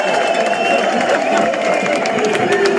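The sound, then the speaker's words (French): A crowd cheers at the Tour de France finish in Montmartre, making a steady roar of spectators while a voice talks over it. “On entend le public. Allez. La ferveur.”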